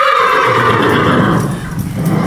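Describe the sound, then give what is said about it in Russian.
A male Orlov trotter horse, about 14 years old, gives a loud, sustained whinny with rich, shaking harmonics that trails off toward the end. “Вот он, мой мальчишка прекрасный. Вот это моя лошадка. В пересчете на человеческий возраст орловскому рысаку 38.”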